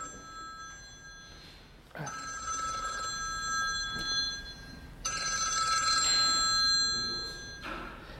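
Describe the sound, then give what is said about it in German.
A telephone rings during a university lecture. High electronic ringtone tones repeat in long bursts with short gaps between them, over a soft steady background hum. “ja, danke für den Anruf, aber ich bin gerade noch in meiner Vorlesung, ich rufe dann zurück in 10 Minuten”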